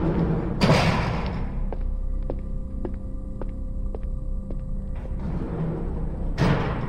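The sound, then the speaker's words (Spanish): Heavy doors are closed in a psychiatric ward, with one loud slamming thud near the start and another near the end. Between them a steady electric hum carries faint, evenly spaced ticking taps. “Cerrando puertas.”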